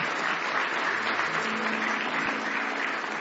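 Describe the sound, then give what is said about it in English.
Congregation applause during an evening church service welcoming a visiting family, a continuous, even roar of many hands clapping that stays steady across the whole stretch. “Give these folks a nice hand tonight.”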